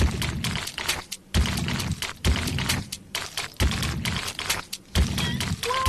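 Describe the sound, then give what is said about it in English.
Macaroni pasta being stirred in a pot, its wet squelching and thumping shaped into a steady, repeating beat-like pattern of strong pulses separated by short lulls. “Macaroni in a pot. The beat is not coming out of the pasta, but the stirring is.”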